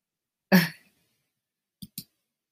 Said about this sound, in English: See, once again, there's a slight delay, and so sometimes I double click the button. I apologize.